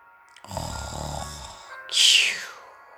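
A man snoring: one low, guttural, rattling breath followed by a louder, sharp hissing snort, alone.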